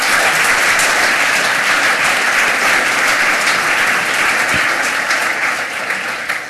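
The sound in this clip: Warm audience applause welcomes two speakers onto the stage at a hacker conference talk, steady dense clapping that holds at full strength throughout and eases off slightly at the very end.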